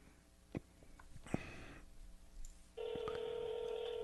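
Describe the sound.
A telephone call being dialed: a few brief beeps and clicks, then a steady electronic tone holds from about two-thirds of the way through to the end.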